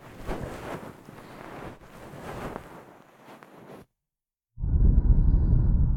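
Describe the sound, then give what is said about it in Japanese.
Soft, fluffy bonten ear-pick brushing on a binaural microphone: continuous textured rustling, a short silent pause, then louder, denser muffled rubbing strokes. “そう、こうやって梵天したりとかもしてますよ。よしよしよしよし。”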